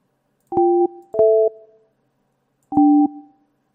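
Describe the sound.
Telephone tones after dialing out to a missed number: three short, steady electronic beeps, the second slightly shifted in pitch, with a longer pause before the third.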